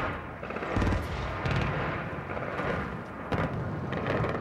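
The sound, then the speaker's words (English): Gunfire in Baghdad during wartime: a few sharp cracks at irregular intervals rise out of a dense, steady wash of noise. “These are shots being fired now in Baghdad. I want our viewers to listen in.”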